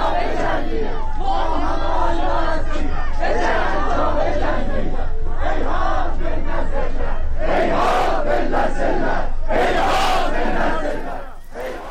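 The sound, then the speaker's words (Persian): A protest crowd in Tabriz chants slogans in Turkish, many loud voices shouting together in a dense, continuous roar that eases slightly at the very end. “مردم به ترکی شعار میدن که آذربایجان چنین ذلتی رو تحمل نمیکنه و صدای اونجا رو میشنویم.”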